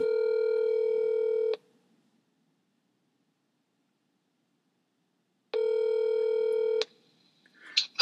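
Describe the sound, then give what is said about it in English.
Telephone tones as an outgoing call is placed, two long steady buzzing rings separated by a silent pause, followed by a brief click and rustle as the line connects. “Let me dial him. I don't want to keep him too long. So here we go. Let's see if he picks up.”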